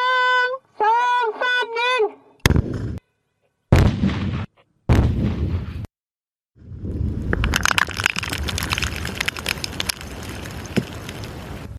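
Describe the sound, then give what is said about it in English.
Blasts from the controlled detonation of small cluster bombs buried underground. A few sharp booms, each with a short rumbling tail, are followed by a long, loud, continuous roaring rumble. “Once they find them under the ground, they'll detonate them, blow them up before they dig them up.”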